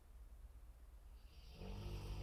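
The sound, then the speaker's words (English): A sleeping dog snores. After a quiet stretch of faint breathing, one low, rasping snore swells in and holds, rough and buzzy but still soft overall. “he's got a loud snore”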